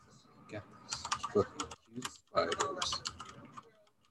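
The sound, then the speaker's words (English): Typing on a computer keyboard: quick clicky keystrokes in irregular clusters, with brief gaps between the bursts. “I don't even know what happened there when I typed that out.”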